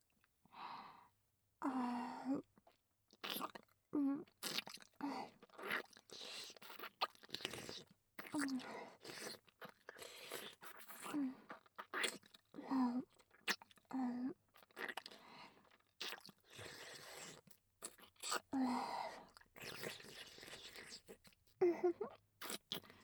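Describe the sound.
Wet licking and mouth sounds, many short moist smacks and slurps in an uneven rhythm, separated by brief pauses with soft breathy sighs.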